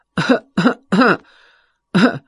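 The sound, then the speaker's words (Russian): A man fakes a cough: three quick, rough coughs in a row, a short pause, then one more, loud and alone. “Он притворно закашлялся.”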